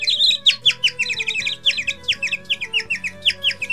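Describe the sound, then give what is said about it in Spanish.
Birds sing in a forest, with many quick, high-pitched chirps and trills repeating in a rapid, busy pattern and no voices. “mientras paseaba por el bosque entre el sonido de los pájaros y otros animales”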